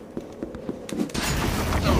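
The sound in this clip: A fire apprentice enemy's fireball attack in a video game: a few soft rhythmic thumps, then a sudden loud, broad whooshing roar that carries on to the end.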